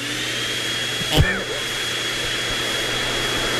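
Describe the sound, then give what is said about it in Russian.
A poplar fluff vacuum machine runs in Moscow, giving a steady, even whooshing drone with a low hum and a brief louder surge early on. “Вот Москва примерно в таких звуках будет все лето. Если что, это звук пухососа.”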